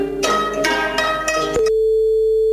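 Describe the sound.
A telephone ringing tone heard while calling a recommendation service: a steady, unbroken pitched tone holds through the final second, after a short, denser tonal passage.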